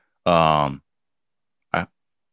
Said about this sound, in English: I'm not crying, I'm burping.